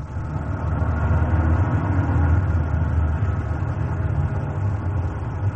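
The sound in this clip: A car's engine drones in a low, steady rumble as it drives off, swelling slightly in the middle and easing toward the end, with no voices.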